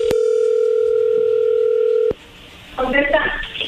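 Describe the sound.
A steady telephone dial tone hums while a call is being placed. It holds for about two seconds, then cuts off with a click, and after a short pause a voice briefly speaks.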